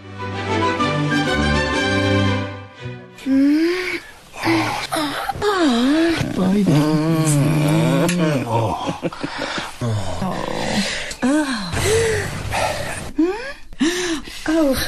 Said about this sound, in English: Joe Cornish as a bit of a thought experiment, edited down an episode of The Archers to just the inhales and exhales. It's an absolutely brilliant bit of radio.